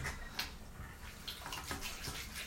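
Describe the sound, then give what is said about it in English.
Faint, thin trickle of water from a tap as the pipes run nearly empty, with a few soft irregular drips and splashes over quiet hiss. “Oh, it's dribbling. It's dribbling. There's not much, not left, much left in the pipes.”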